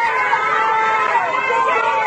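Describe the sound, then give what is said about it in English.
Wuhan residents shout and cheer from balconies and rooftops, a dense, continuous mass of many raised voices blending into a steady roar. “Residents of Wuhan shouted and cheered from their balconies and rooftops today.”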